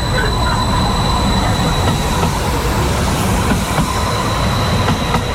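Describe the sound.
Steady, loud rolling rumble of an airport-bound tram pulling out of a stop, with a faint high wheel whine held throughout and no voices.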